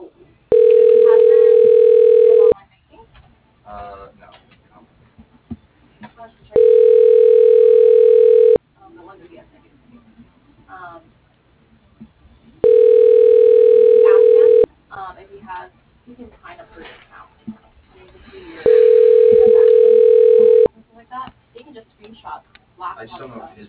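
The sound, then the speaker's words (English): Four long, steady ringing tones from a telephone system as a call is put through to an extension, evenly spaced and each about two seconds long, with speech between them. “To listen to these choices, dialing Mario Casares, extension 136.”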